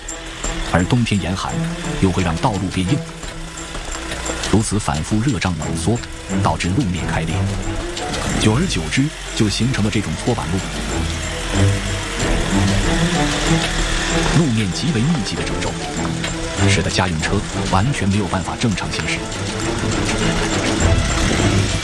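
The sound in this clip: A test car drives over a corrugated washboard road on a high plateau. The rattling and juddering are loud and continuous, with dense rapid vibration that barely lets up for the whole stretch.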